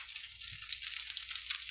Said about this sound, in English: see how beautiful they're cooking up nice. I used olive oil. I'm using olive oil to cook those.